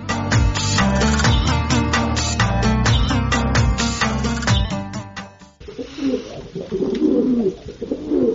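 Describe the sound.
Pigeons of Baghdadi, Shirazi and lotan breeds coo while eating grain in the afternoon, low, soft, repeated calls that become clearest toward the end after a denser tonal passage.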